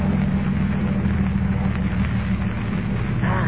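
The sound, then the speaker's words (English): A boat's motor drones steadily as it moves slowly through a channel, carrying armed mines. The low, rumbling hum stays constant and unbroken throughout, with no talk over it. “There is the Juanita, Escobar. Offshore. We must work fast. Stop the motor.”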